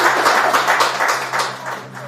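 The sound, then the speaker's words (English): A round of clapping for a 90-year-old woman, the first person outside clinical trials to receive the Pfizer-BioNTech COVID jab: quick, rhythmic claps from a few people over a steady low hum, tapering slightly near the end. “And a round of applause for it.”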